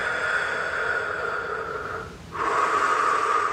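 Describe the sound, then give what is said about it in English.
A deep breath, drawn slowly and steadily as a long airy rush, broken by a short pause before it continues, over a faint sustained tone. “Deep breath.”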